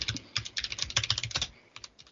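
Computer keyboard typing in the background: rapid, irregular keystroke clicks for most of the stretch, then a short lull and a few final taps, with no voices.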